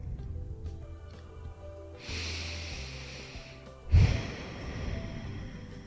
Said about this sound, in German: Vielleicht möchtest du ein paar tiefe Atemzüge nehmen.